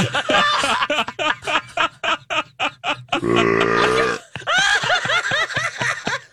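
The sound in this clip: A burp sound effect: a rapid run of short, choppy croaks, then a long, low, drawn-out belch, followed by bursts of giggling laughter.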